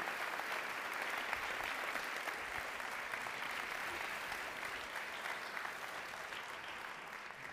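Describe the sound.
Audience applause welcoming a guest at a Northern Michigan show: a steady, continuous wash of many hands clapping that holds evenly for the whole stretch at a fairly low level, with no voices standing out.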